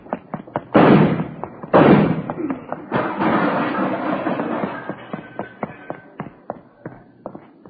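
Two loud, sharp gunshots ring out during an armed standoff at a wall, about a second apart, followed by a stretch of low rumbling noise and scattered knocks and thuds.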